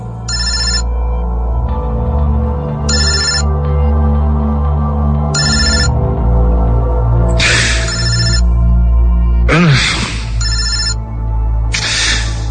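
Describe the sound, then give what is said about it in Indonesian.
A telephone ringing on and off in the morning, its bright electronic rings coming in regular bursts about every two seconds, repeating persistently over a steady low hum with no talking. “aku dibangunkan dengan suara dering telepon yang terus-menerus berbunyi.”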